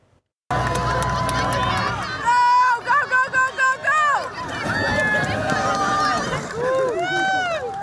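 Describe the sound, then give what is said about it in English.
A crowd cheers and yells at a Lumbee race of people running in homemade outhouses. Loud, continuous shouting and excited voices rise and fall, with a burst of choppy, rhythmic cries partway through. “People are racing in homemade outhouses towards a finish line in front of a cheering crowd.”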